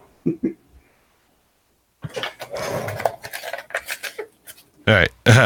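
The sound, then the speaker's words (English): Kitchen clatter while Irish hot cider is made: a few light clinks and scrapes of utensils and dishes, then a stretch of busier handling noise, with people talking around it. “As I make my Irish hot cider.”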